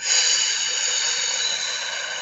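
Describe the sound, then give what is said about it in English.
A long, deep breath is exhaled slowly through pursed lips, as if through a straw, during a breathing exercise, giving a steady airy hiss that lasts the whole clip with no talking. “Take a deep breath in through your nose. Out through your mouth like through a straw.”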